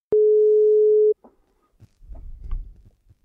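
A telephone ringback tone sounds while a call is being placed: one steady, loud, mid-pitched tone lasting about a second. It is followed by silence and then faint, low rumbling noise.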